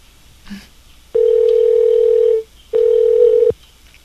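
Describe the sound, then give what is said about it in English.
Phone-line ringback tone heard while calling a toll-free number late at night: two long, steady, mid-pitched tones, the first longer than the second, separated by a short silence, with no talk over them. “Let's call another toll-free number.”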